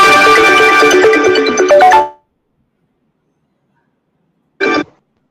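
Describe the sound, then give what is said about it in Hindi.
A mobile phone ringtone for an incoming call plays a bright, loud melodic tone pattern for about two seconds and cuts off, followed after a silence by one short tone. “और आपके mobile पे बार बार call आ रही लग रहा है”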